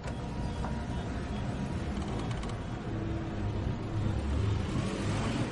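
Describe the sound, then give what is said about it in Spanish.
A van's engine pulls away and drives toward a gas station, a steady low engine rumble under broad road noise that swells slightly toward the end. “El hijo arranca y se aproxima a la gasolinera.”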